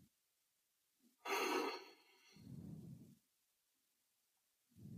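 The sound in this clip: A deep breath in during a guided breathing exercise in a therapy session: a faint, airy rush that starts abruptly, followed by a softer, lower breath, with no talking over it.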